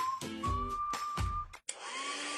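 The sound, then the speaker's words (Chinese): A hair dryer blowing on hair makes a steady airy whoosh with a high whine. It cuts out briefly near the end, then resumes. “每次吹完头发又毛又干，真闹心。”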